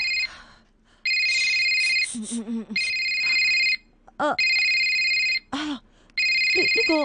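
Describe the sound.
A mobile phone rings with an incoming call, its bright electronic ringtone repeating in four loud bursts with brief pauses, and short voices are heard in the gaps between rings.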